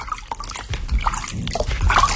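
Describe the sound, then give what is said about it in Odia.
Water fills a clay pot in irregular trickles, drips and gurgling splashes that come in small uneven bursts. “ଲୁଇତ ଭାଙ୍ଗିବା କ୍ଷଣି କଳସିରେ ଜଳ ଭରା ହେବାର ଶବ୍ଦ ଶୁଭିଲାଣି।”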